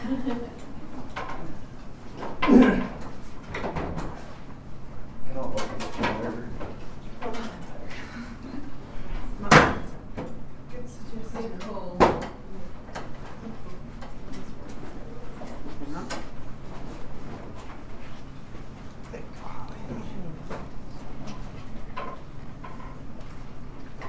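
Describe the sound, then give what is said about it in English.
Chairs being dragged and set into a circle for a breakout discussion at a fringe theatre congress: a few sharp knocks and scrapes, with a louder thump midway, under continuous talking voices. “Can I make a suggestion? Can we just take chairs and circle up?”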